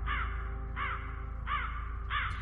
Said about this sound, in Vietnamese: Từ trên bầu trời, tiếng bầy quạ bay tới, kêu lên ráo rác những tiếng thê lương.